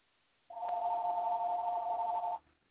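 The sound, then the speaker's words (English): A telephone rings during a sermon with one steady electronic tone lasting about two seconds, fairly faint and alone, before it cuts off. “pardon this phone ringing. We're going to go on with it. It'll quit in a minute.”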